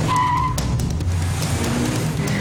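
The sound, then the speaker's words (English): Mini Cooper S driving hard, with engine noise and squealing, skidding tires, a short tonal whine at the start, then scattered sharp bursts over a steady roar. “in the Mini Cooper S, you'll be flying in no time.”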